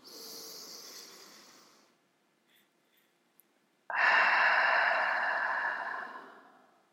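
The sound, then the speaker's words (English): One slow breath: a soft, airy inhale through the nose, a held silence of about two seconds, then a louder, longer exhale out of the mouth that fades away gradually, with no speech. “In through the nose, holding it for a count of four, and then exhaling it out of the mouth for a count of four again.”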